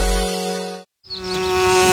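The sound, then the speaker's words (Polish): Bees buzzing as they fly toward flowers at a garden center, a dense harmonic drone that cuts out briefly mid-clip, then returns with high, wavering buzzes over a steady tone. “Wszystkie pszczoły tam lecą.”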